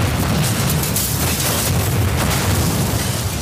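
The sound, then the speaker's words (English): Explosion sound effect: a loud, sustained roaring blast of deep rumble and crackling hiss that fills the whole few seconds without a break. “That might be the sound of the Seahawks exploding or imploding, or it might be what you want to do to the framework of the Seahawks infrastructure.”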